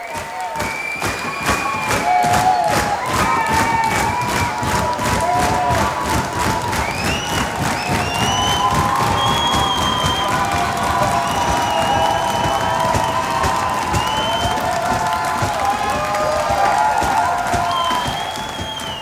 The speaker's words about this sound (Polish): Koncert okazał się znacznie w cudzysłowie brudniejszym graniem, co zachwyciło publiczność, która wymusiła na Nowojorczykach bis. Mówię wymusiła, zresztą proszę ocenić osobiście.